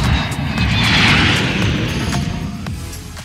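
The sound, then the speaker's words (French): An airplane taking off, a loud, steady roar of broad engine noise that swells toward the middle and then eases slightly as it continues. “Attention au décollage.”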